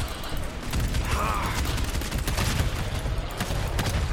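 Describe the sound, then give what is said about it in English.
Gunfire erupts in the video game GTFO, a dense run of rapid shots over a steady, noisy background, holding at an even loudness throughout. “Aw, oh, crap, I shot my gun.”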